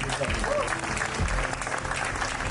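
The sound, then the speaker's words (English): A round of applause from an audience for the Maltese government, thick, continuous clapping at a steady level throughout, with a voice briefly audible beneath it. “So let's give a round of applause to the”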